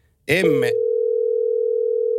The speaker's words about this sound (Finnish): No nyt meni puhelinlinjat sekaisin.